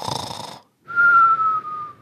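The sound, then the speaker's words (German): A voice imitates a cartoon-style snore: a rough, noisy snort, a brief gap, then a long steady whistle that drifts slightly lower in pitch. “Das gibt's nur, es fällt mir gerade auf, das machen die doch immer in Comics, aber das so. So schnarcht keiner wirklich, oder?”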